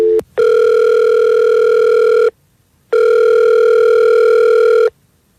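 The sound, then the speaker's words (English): Telephone call ringing out: two long, steady electronic ring tones of about two seconds each, separated by a short pause. They are loud and alone, and a brief click comes just before the first ring. “Let's call him right now.”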